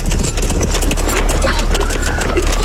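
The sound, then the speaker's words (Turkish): Hoofbeats of horses with riders approaching form a dense, continuous clatter of hooves over a loud low rumble. “Atlılar geliyor efendim, atlılar.”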